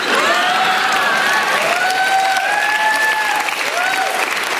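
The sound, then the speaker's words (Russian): Loud, dense hand clapping of a standing ovation, steady and continuous for around five seconds without a break. “Аплодирую стоя!”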